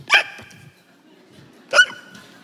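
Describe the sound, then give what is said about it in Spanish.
A voice imitates hiccups the way an old cartoon character did: two sharp, high, yelping hic sounds about a second and a half apart, with nothing else. “Hipo era un viejito como Mr. Magoo que hacía así,”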